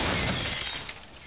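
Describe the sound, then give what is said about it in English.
Glass shattering as a stylish glass coffee table smashes after a fall: one loud, dense burst of breaking glass that stays busy and slowly thins and fades over about a second, with no voices. “Now a stylish glass coffee table.”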